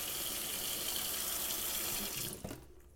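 Tap water runs in a faint, steady rush while dishes are rinsed and soaped, then drops away abruptly near the end.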